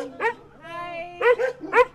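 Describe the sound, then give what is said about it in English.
A dog at a house with a beware-of-dog sign barks in a few short, sharp bursts, with a longer sustained cry between them. “I mean, I'm not going to go in with this dog here”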